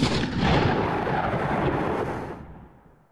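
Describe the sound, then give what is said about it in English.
A recreation of the classic film gunshot-and-ricochet effect, made outdoors in New Mexico: one loud, harsh blast that rumbles on for about two seconds and then fades away, with no voices. “a friend and I went to New Mexico this summer to try to replicate it.”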